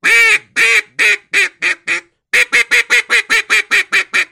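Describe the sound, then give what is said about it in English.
Quick single quacks blown on a duck call, loud and nasal, in two runs: a first set that grows fainter, a short pause, then a longer, faster string of many clipped quacks. “I change the speed, which should change the inflection. It's still just single quacks, starting at the top of the scale, coming down. I made them quicker. I can make them slower.”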